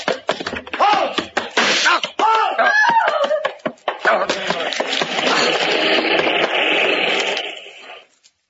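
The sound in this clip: Gunshots ring out during a radio drama shootout, many sharp cracks in quick succession mixed with shouted voices, then giving way to a steady wash of noise that cuts off at the end.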